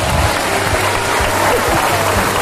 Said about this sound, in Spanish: Un aplauso para ellas.